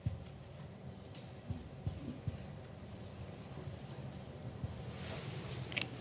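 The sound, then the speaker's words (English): Faint scratching and rubbing of a drawing tool on a surface as a picture of Adam and Eve is sketched, a soft continuous texture with a few light taps, no talking. “I'm going to draw Adam and Eve here.”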